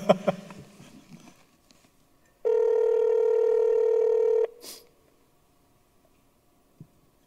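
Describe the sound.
A telephone call being placed: one steady electronic ring tone holds loud for about two seconds against near silence. A few faint clicks come before and after it.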